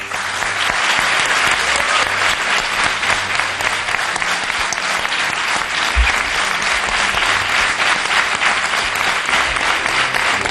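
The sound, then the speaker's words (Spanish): Audience applause in a university auditorium during a live event: a sustained, loud wash of many hands clapping at a steady level for about ten seconds, with no speech over it. “muchos oyentes que dan la bienvenida a todos los que nos escuchan al otro lado de la radio con el siguiente aplauso.”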